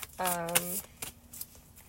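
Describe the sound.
Oracle cards being shuffled: soft papery riffles and flicks, with a short voiced tone over the first part, then a few lighter card taps.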